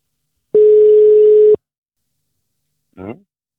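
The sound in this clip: A phone call's ringback tone sounds as a single steady, mid-pitched beep lasting about a second while the caller waits for an answer, then silence and a brief voice.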